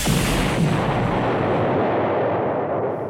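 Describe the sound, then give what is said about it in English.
A high-impact missile launches in a science-fiction audio drama as a loud, dense, roaring blast that holds steady for about three seconds. It thins slightly at the very end. “Activating high-impact missile.”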